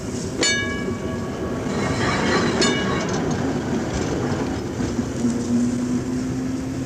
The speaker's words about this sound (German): Über dem in heißer Mittagssonne liegenden Betriebshof der städtischen Straßenbahn fährt langsam der fahrplanmäßige Triebwagen des großen Rings, holt sich im Depot seinen Anhänger